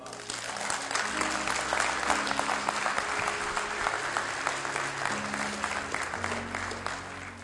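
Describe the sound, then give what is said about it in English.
A church audience claps loudly and steadily through the whole stretch, a dense continuous patter with a voice heard over it. “Can you clap your hands?”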